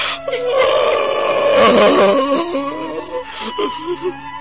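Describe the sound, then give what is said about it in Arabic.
A man, addressed as a bishop, crying: a loud, wavering, moaning sob with an unsteady pitch that breaks into shorter, halting sobs toward the end. “مالك يا سيدنا؟ مالك؟ نيافتك بتبكي ليه؟”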